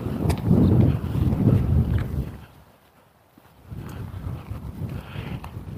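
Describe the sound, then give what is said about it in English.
Wind rises outdoors in loud, rushing, buffeting gusts. They fade to near quiet for a moment, then build again into a steady roar. “Wind is coming up.”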